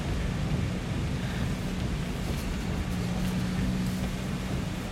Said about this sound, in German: Ich muss leider langsam fahren. Der Sturm ist so stark, dass er den Wagen fast an der Straße weht.